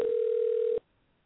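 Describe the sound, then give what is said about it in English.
Telephone ringing on the line: a single steady electronic ring tone holds for under a second, then cuts off abruptly to near silence. “And it'd be nice if he answered the phone. Bottom of the damn phone's ringing.”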